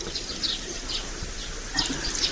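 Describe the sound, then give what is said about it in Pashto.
Warm water is poured over hands for washing with soap, making a soft, continuous splashing trickle that stays fairly faint and even throughout. “ښه، راواچوه اوبه. نیسه لاسونه، دا صابون هم در واخله، زه به ګرمې اوبه در واچوم.”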